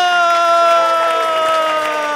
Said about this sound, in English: And why don't we keep that applause going for our next act?